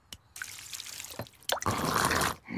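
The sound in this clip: Liquid spilled onto a surface for a paper towel to soak up: a couple of faint drips and splashes give way to a sustained, hissing pour of liquid that then stops.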